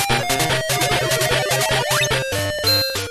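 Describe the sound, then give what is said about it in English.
Possession sound effect from the Game Boy version of a video game: bright chiptune bleeps over a choppy, repeating low square-wave pattern, with a quick rising sweep near the middle. “Why does that sound familiar? That is the sound of possession on the Game Boy version of this game,”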